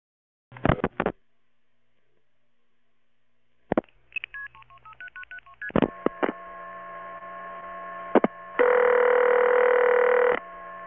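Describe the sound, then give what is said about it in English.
Telephone keypad tones dial a conference number: a few isolated clicks, then a quick run of short DTMF beeps of varying pitch, ending with a long steady buzzing tone over faint mains hum. “please dial 1088 to join the conversation”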